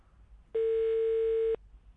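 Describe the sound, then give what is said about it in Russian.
One loud, steady ringback tone lasting about a second, from a phone call to a school that goes unanswered, with only a faint background before and after. “Почему-то не берут трубку.”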